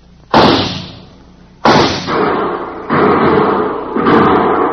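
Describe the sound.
Two sharp, loud gunshots fired by two men during a standoff, each followed by a fading rumble, then a couple of duller, softer reports.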